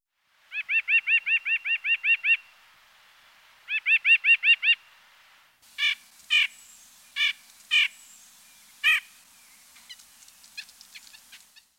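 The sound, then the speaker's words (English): White-breasted nuthatch calling: two quick runs of evenly spaced, nasal repeated notes, followed by a few separate sharper notes and a faint scatter of softer chirps at the end. “White-breasted nuthatch.”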